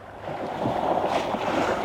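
Sea water splashes and rushes around a boat near the coast in a continuous, loud, turbulent wash with wind noise over it and no voices.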